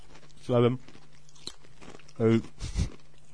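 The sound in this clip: Someone eats spicy red pepper crackers, with brief bursts of crunching and chewing separated by short voiced murmurs and quiet pauses.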